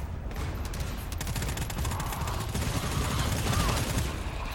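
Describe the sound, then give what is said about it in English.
Video game gunfire, dense rapid bursts that run together into a continuous loud crackle for the whole stretch, with a voice audible over the shooting. “My gun shooting.”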